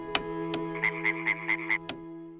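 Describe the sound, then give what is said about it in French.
A frog alarm clock croaking: a quick even run of five raspy croaks, bracketed by a few sharp clicks, over a steady sustained tonal drone. “elle met le réveil grenouille”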